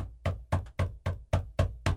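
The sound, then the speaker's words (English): Knocking on a house door, made by a squirrel: a steady series of sharp, hollow knocks at an even rhythm, fairly loud and alone. “I go look, there's a squirrel knocking on the door”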